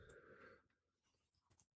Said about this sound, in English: But it does make a nice, satisfying click when you attach the Joy-Con back to the tablet.